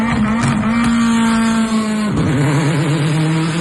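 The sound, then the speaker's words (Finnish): A rallycross race car engine revs hard in a loud, continuous high drone. Partway through, it dips and then wobbles at a slightly lower pitch. “No sehän on sitten yksi hienoimpia ääniä ja tätä herkkua on luvassa Pesämäen rallycross-radalla lauantaina 22.8. kello 11 alkaen, kun rallycrossin SM-sarja saapuu Honkajoelle.”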